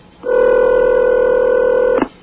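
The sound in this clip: A loud, steady telephone tone holds unbroken for nearly two seconds, then cuts off with a brief click.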